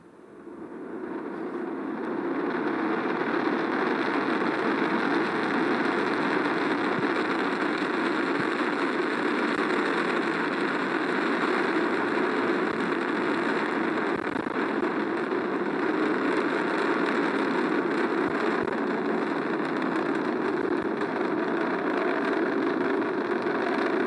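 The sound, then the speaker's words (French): Deep roar of an Ariane rocket lifting off as its Vulcain engine and solid boosters ignite. The dense, rumbling noise builds over the first few seconds, then holds loud and steady, with no voices. “Allumage Vulcain. Et je peux vous dire que c'est quelque chose d'extrêmement impressionnant de voir décoller les 800 tonnes. Allumage des EAP et décollage. Les 800 tonnes d'Ariane.”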